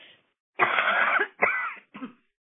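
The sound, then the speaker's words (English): A person coughs mid-talk in three harsh bursts: a long, loud first one, then a second, then a short, weaker third. “I'm sorry, I'm going to have to cough just a moment.”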